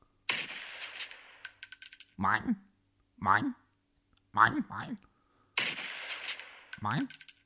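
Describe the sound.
Gunfire is aimed at seagulls: two long, harsh bursts of rapid shots, one at the start and one near the end. Between and after them come short, squawky voices.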